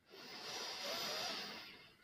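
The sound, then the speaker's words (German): A single slow exhaling breath, soft and airy, swells gently and then fades over about two seconds at a faint level, heard alone during a guided relaxation exercise. “Und ganz langsam einmal ausatmen.”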